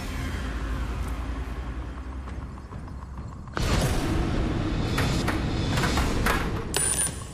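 Whirring and rattling of the drop zone machine on the Tipping Point game show as it pushes counters: a steady low mechanical drone that jumps sharply louder partway through, with clattering clicks over the later part.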